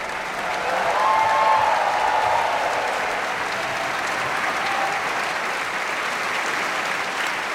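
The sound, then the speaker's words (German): An opera audience applauds the singers at a curtain call. Dense, even clapping holds steady for the whole stretch and swells slightly early on. “und großer Jubel für Peter Hoare”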